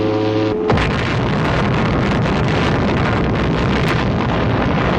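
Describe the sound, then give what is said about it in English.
The first atomic bomb explosion, tested in New Mexico in 1945, opens with a brief steady tone and then bursts into a loud, dense roar that rumbles continuously to the end. “That is the sound of the first atomic bomb that was successfully exploded in New Mexico.”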